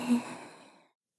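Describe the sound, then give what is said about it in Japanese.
A single slow, deep breath drawn during a guided relaxation breathing exercise: soft and airy, fading out over about a second. “それではまず深呼吸から。ゆっくり息を吸って”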